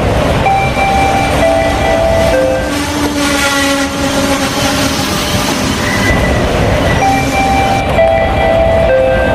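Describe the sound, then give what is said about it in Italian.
A train pulls into a station, a loud steady rumble of rolling wagons and wheels with sustained horn tones sounding over it and some wheel squeal. “il treno è già in arrivo, quindi dovremmo un attimino raggiungere, eccolo qua, la stazione.”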